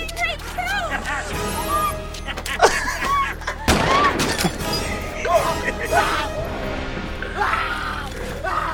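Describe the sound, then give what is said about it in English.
Gunfire from a RoboCop film scene: sharp bursts and one loud crashing blast midway, mixed under constant overlapping voices and shouting. “This is where RoboCop shoots everybody's dicks off.”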